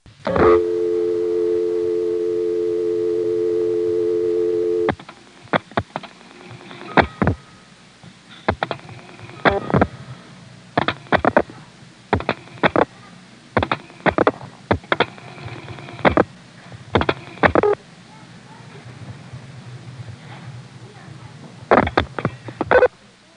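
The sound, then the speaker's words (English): A steady dial tone gives way to many bursts of rotary pulse dialing, with clicks in quick clusters separated by short gaps. The call, from about 1977, goes to the 594 Nokesville intercept: 49 to drop the register sender, then 7, 2 and four digits. “I happened to call this one without the register sender, so I dialed 49, 7 for Manassas, 2 for Independent Hill, and then the last four digits.”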